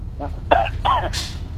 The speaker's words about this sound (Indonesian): Nah, ini yang enggak sehat ya. Batuk nih.